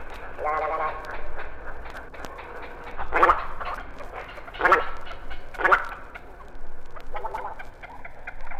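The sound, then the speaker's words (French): Little grebes call while chasing each other on water, giving high, rapid trilling whinny-like bursts that recur every second or two against a constant low background rumble. “Sur l'eau, ces rires aigus sont les cris des grèbes castagneux qui se poursuivent.”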